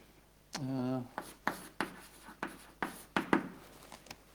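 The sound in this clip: Scratchy strokes of writing on a board during a lecture: many short, brisk marks in an uneven rhythm, with a brief vocal sound near the start.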